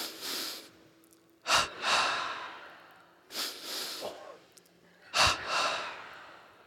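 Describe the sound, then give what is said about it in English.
Deep breaths in and forceful breaths out during a whole-body tension-and-release breathing exercise, repeated over a few cycles, with sharp bursts of air at each exhale and softer rushing breath between them, fairly quiet. “Let's inhale, tense the whole body. Throw the breath out, twice more.”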